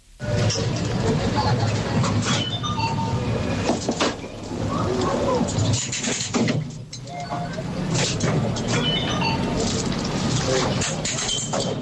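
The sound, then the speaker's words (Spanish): Busy, continuous ambience of a commuter train station: a dense, fairly loud wash of mixed noise with indistinct crowd murmur, holding steady throughout with only brief dips. “Claro, a mí me suena a estación de cercanías. O sea, esto es una estación de cercanías,”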